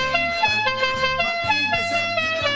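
Car horns honking over and over, several sustained, brassy tones overlapping one another with uneven stabs of emphasis, loud throughout with no pause.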